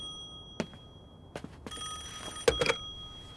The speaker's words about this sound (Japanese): 電話。